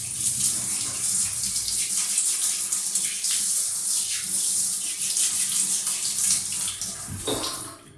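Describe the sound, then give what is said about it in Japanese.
Tap water runs steadily to rinse mud-covered hands, a constant bright rushing hiss that holds for several seconds before a brief knock and a sudden drop as the flow ends. “お手手がドロドロになってしまったので流そうかな。流してからおもちゃでやっていこう。”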